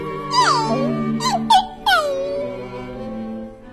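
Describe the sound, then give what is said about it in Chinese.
Dogs whimpering sadly: a few high, tonal whines and short squeals that bend and fall in pitch, with brief sharper cries in the middle, fairly loud and sustained. “皮皮和汪汪难过地叫着”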